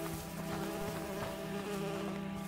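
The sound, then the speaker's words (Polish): Flies buzz in a steady, continuous drone that holds an even level throughout, with no voices. “Boże, jakieś takie muchy, wszystko takie jakieś...”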